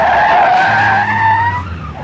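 Car tyres skid and screech on a road in traffic during a near rear-end collision: a loud, sustained tonal squeal of about two seconds over a low engine drone, easing slightly toward the end.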